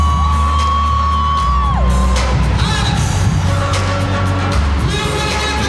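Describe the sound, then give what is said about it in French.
Crowd whooping and cheering at a reception for Sidiki Diabaté, a kora player and pop star, with loud sustained shouts and high calls over a steady low hum. “This is the reception for 25-year-old Sidiki Diabaté, son of kora maestro Toumani Diabaté.”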